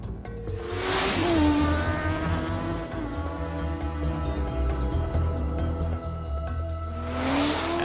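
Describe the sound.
Car engine revving as a car drives off in an animated adventure, a loud continuous engine roar with tire squeals and rising engine pitch near the start and again at the end.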